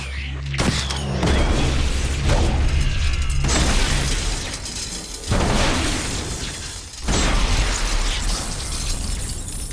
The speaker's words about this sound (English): That's Matt Damon firing his ludicrous weapon in Elysium.